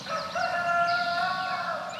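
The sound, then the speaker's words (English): A Rhode Island Red rooster crows in one loud, drawn-out call with a bright, harmonic tone that holds steady for about two seconds, heard alone. “a Rhode Island red rooster, or Araucana, to use its proper title, king of the hill in the chicken world.”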